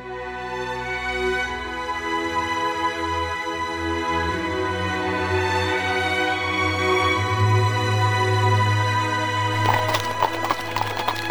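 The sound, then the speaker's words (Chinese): Horse hooves clip-clop as a horse-drawn carriage pulls out through a factory gate, the steady hoofbeats running throughout over a sustained tonal backdrop. “当马车驶出工厂的大门时”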